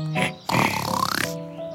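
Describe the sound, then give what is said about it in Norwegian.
A fat pig grunting as it lies down: one drawn-out, low, rough grunt with a rapid rattling pulse, set against a soft, steady tonal background. “Oi, der legger den der feite grisen seg.”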